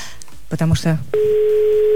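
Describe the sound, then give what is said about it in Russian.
A telephone ringing tone plays while a call waits to be answered. After a brief bit of speech, a loud, steady, single-pitched tone holds to the end. “Ждем, что Екатерина возьмет трубку, скажет сначала алло”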